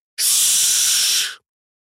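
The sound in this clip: Loud, high, airy hiss from a large dark-green caterpillar monster with spider legs and a stinger-tipped tail as it lunges; one steady burst of a little over a second that stops abruptly, with no other sound.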